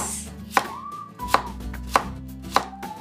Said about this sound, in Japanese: 額のところから切り落としてしまいますでこれを薄切りにしていきます